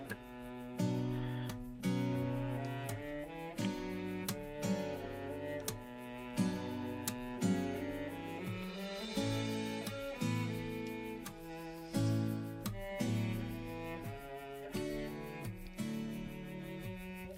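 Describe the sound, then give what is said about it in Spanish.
A music track plays alone, with strong percussive hits recurring at a regular pulse under sustained, layered chords and melodic lines, loud and full throughout. “La verdad es que da hasta pena hablar encima de esta música”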